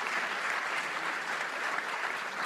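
Audience applause, a steady, even wash of many hands clapping at moderate volume, unbroken and without voices.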